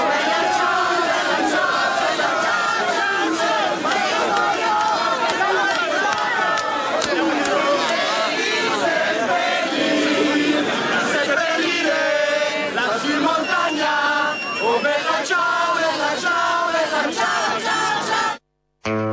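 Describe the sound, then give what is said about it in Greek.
A huge Italian crowd celebrating Berlusconi's departure, singing Bella Ciao: a dense, loud, continuous roar of many voices chanting and shouting together, sustained throughout before cutting off abruptly near the end. “Αυτοί είναι οι Ιταλοί, οι οποίοι πανηγυρίζουν επειδή έφυγε ο Μπερλουσκόνη και τραγουδάνε τον Μπελατσάο.”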